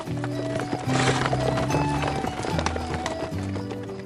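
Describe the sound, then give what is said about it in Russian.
Horse hooves clatter on a paved road as riders and carriages climb a hill: a dense, continuous run of hard clip-clops from several animals, loud throughout. “Всадники и кареты поднимались на гору. Копыта тяжело гремели по мостовой”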